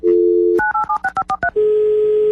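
Telephone dialing: a steady dial tone, then a quick run of several short keypad beeps at varying pitches, and finally another continuous tone.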